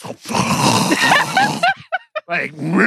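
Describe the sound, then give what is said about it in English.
A voice imitates someone snoring with rough, grunting, snorting rasps, followed by a few short choppy vocal bursts. “Soon as I get back to the bed and lay back down, you start snoring again.”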